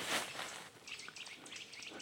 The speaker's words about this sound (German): ein Riesentheater hier mit Kleibern und Spechten. Weil ich hier in den Wald komme.